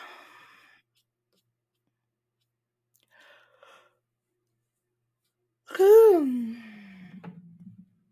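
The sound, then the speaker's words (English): A single yawn: a loud breathy voiced onset falls in pitch and trails off into a long, low, fading exhale, coming alone after a few faint earlier sounds. “See, I yawned.”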